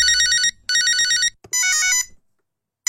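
A telephone rings in three bursts of bright, warbling electronic tone, each about half a second long and separated by short gaps, with no voices.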